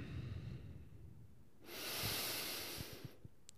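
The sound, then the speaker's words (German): A single deep breath: a long, airy rush of breath lasting about a second and a half, loud and alone, with a few soft low thumps trailing after it. “Lass uns erstmal einen tiefen Atemzug nehmen.”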